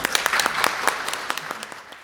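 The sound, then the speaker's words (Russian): Audience applause at a stage show: sharp, separate claps stand out over a softer bed of clapping, and the whole grows a little quieter toward the end. “Зрители не могли удержаться от аплодисментов в наиболее эмоциональных историях.”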